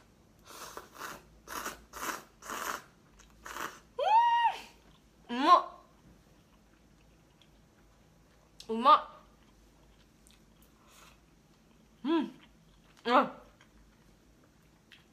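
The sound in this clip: Crisp crunching as a mizutaki hotpot-flavored snack is chewed: a quick run of several sharp bites at the start, followed by a voice talking in short phrases.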